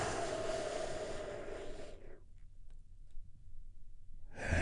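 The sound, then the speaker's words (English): A big, deep exhale during a guided relaxation breathing exercise: a soft, broad rush of breath lasting about two seconds that fades into near silence, with another breath starting at the very end. “we do that by taking a big, deep, healing breath together”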